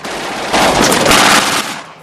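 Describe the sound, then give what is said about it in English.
Machine gun fire at a circling German fighter plane. A loud, dense, continuous roar of rapid shots swells through the middle of the burst and then eases off. “fires at a circling German fighter.”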